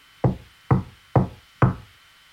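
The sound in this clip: Knocking at a door, four firm, evenly spaced raps with short decaying tails, each about half a second apart, loud and alone with no voices.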